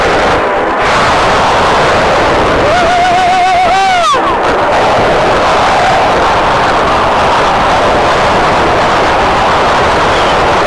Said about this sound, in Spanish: Las tres bombas de Velasco destrozaban el lado de babor del barco.